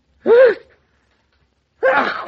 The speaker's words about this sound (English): That settles it. When a man sneezes three times, it's a cold.